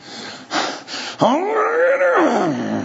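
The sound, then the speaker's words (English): A voice imitating fruit trees grunting and groaning as they strain to bear fruit: two breathy inhales, then one long, wavering groan that swells and falls away at the end. “And they're grunting and groaning and they're trying as hard as they can to squeeze out a little bit of fruit.”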